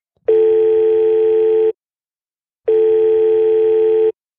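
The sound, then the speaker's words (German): A Skype call ringing tone sounds as two long, steady electronic tones, each about one and a half seconds, separated by a silent pause of about a second. The tones are loud and alone, with no voices. “und dazu werden wir die jetzt via Skype anrufen”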